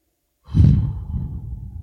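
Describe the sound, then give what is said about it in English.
A church audience taking a deep breath together during a sermon, heard as one long, breathy collective sigh that starts abruptly, peaks early and trails off in a soft, airy rush. “Come on, somebody just take a deep breath.”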